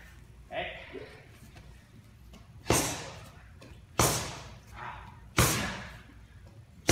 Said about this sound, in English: we're talking about how he's got a little bit of body armor here. So I'm going to try to blast through it with a hook.